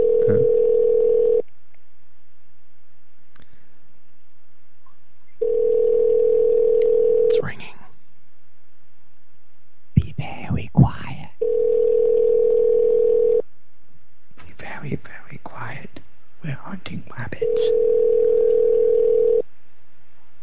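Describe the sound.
Telephone ringing tone while a call is placed: four steady, even bursts of about two seconds each, separated by longer gaps in which people talk.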